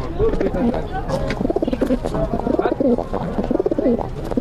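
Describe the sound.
Pigeons cooing in a pigeon house, with many repeated low, throaty coos that roll and warble one after another.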